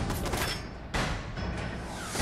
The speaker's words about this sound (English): Can I just blow his head off right here at close range? He doesn't see me.